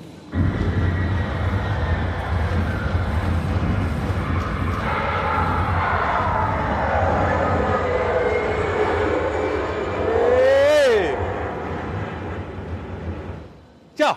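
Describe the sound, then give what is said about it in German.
An aircraft aborting its landing and going around: a sustained, loud broad engine roar lasting many seconds, with a sharp tonal whine that rises and swoops near the end before the sound cuts off abruptly. “Die Pilotin sagt, ich war zu schnell, konnte den Landebahn nicht sehen, hat Gas gegeben, ist durchgestartet, dreht eine neue große Runde, landet einfach neu.”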